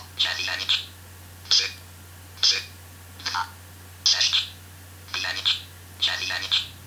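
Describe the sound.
A telephone keypad beeps as a number is dialled. Many short, high electronic tones come singly and in quick clusters at an uneven pace over a steady low hum.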